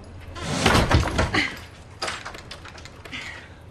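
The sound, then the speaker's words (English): An older woman forces an old, stubborn door that won't close, producing rough scraping and rattling bursts: a strong surge early on, then a few more knocks and scrapes. “Then, an older woman in a headscarf is trying to shut an old door.”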